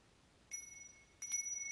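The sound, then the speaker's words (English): A mobile phone rings with a bright electronic tone, two separate bursts, the second starting after a short gap and continuing to the end, clear against a quiet background. “Sorry about that. That was my phone ringing.”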